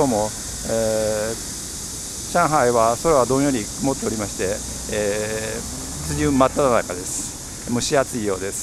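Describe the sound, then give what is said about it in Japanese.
Cicadas like bear cicadas singing outside a hotel in Shanghai on a humid, overcast rainy-season day: a steady high buzzing drone runs continuously under a person talking. “皆さん聞こえますか？クマゼミみたいな声。”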